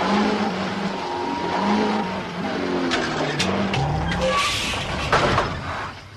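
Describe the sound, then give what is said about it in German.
A car engine revs hard and strains to move the stuck car forward while it is being pushed. It makes a steady, loud roar with some wavering in pitch. No voices are heard. “Gib Gas! Jetzt bloß nicht stehen bleiben!”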